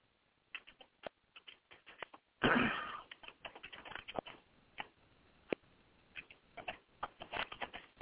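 Someone writing notes makes quiet, irregular clicks and light taps, with one brief, louder scratchy rustle partway through. The sound is soft and there is no talk.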